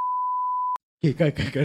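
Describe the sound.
A single censor beep, a pure, steady high tone under a second long that cuts off abruptly, followed after a brief silence by someone talking.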